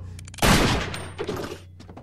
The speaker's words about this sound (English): The man comes to a standstill and raises a pistol.